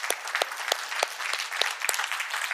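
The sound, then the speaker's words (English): An audience gives a round of applause to congratulate a swim team leader at a morning gathering, a steady patter of many hands clapping at even loudness throughout. “And I just thought we could give her a hand this morning.”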